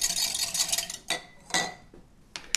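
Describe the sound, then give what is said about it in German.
A whisk stirs a tablespoon of paste thickener into water, making a quick run of scraping, clinking strokes against the container, followed by a few separate, faint strokes. “Und die werden dann gemischt. Einmal mit dem Quirl.”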